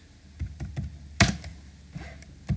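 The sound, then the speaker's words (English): Computer keyboard keys clicking while someone types a quick web search: a series of irregular, fairly light taps, with one sharper, louder strike near the middle and no voices. “I'm just doing a quick Google if you hear the clicking in the background”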